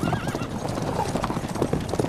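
A horse whinnies, then gallops off as its rider urges it on, its hooves clattering in a rapid, continuous clip-clop throughout.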